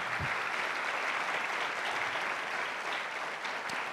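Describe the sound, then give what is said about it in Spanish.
An audience claps in praise to the Lord during a bilingual English-Spanish church sermon. The applause is even and sustained, a continuous wash of many hands with no break. “En el cual uno le puede dar un aplauso al Señor.”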